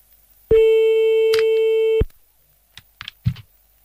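A telephone busy tone heard after redialing: one steady, mid-pitched electronic tone that holds for about a second and a half and then cuts off, followed by a few faint clicks and handling noises.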